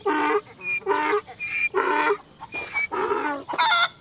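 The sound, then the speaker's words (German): Ducks quacking on a farm: a rapid series of loud, nasal, harsh calls in short bursts, close together and alone without talk. “Pato. Pato, Enten.”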